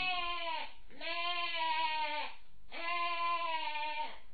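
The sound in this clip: A young goat bleats in long, wavering, nasal cries, with three drawn-out bleats separated by brief pauses, loud and clear with no other sounds.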